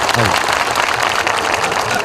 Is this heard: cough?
no